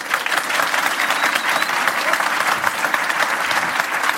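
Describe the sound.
An audience at the Dunedin Writers and Readers Festival applauds to welcome Akala. The clapping is loud, dense and sustained from many hands, with no gap throughout.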